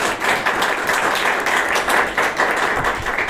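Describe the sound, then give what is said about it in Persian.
An audience at a class on Hafez and the Masnavi claps for themselves, a brisk, dense patter of many hands at a fairly loud, even level with light rhythmic surges. “یه دست به افتخار خودتون بزنید.”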